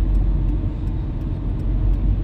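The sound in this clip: Cars driving past on a highway make a steady, heavy low rumble of tyres and engines that fills the whole stretch, with no talk over it.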